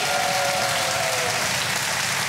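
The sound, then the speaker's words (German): Birthday applause from a crowd, a dense, steady wash of clapping that stays loud and even for the whole stretch with no talk over it. “Können wir noch mal einen richtig fetten Applaus für Michis Geburtstag haben?”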